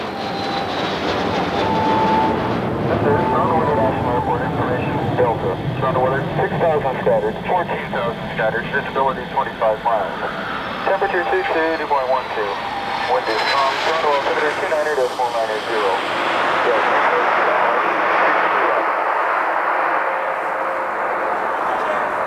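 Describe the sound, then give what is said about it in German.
Airliner landing at Cairo's airport in Egypt: a loud, steady, broad roar of engines and rushing air that fills the whole clip without a break. “Landung auf dem Flughafen von Kairo, der Hauptstadt Ägyptens.”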